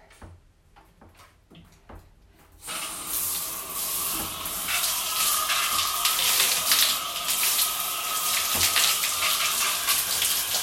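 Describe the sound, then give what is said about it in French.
A handheld shower head is turned on to rinse during a shower: a few faint clicks and knocks, then a sudden loud, steady hissing spray of water that runs without a break to the end. “À nouveau, je reprends le pommeau et, excusez-moi, et je mets l'eau.”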